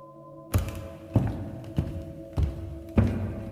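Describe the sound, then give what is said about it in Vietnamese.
Footsteps sound as a steady series of heavy, dull thuds, evenly spaced a little over half a second apart, against a quiet background. “Sau đó có tiếng bước chân vang lên.”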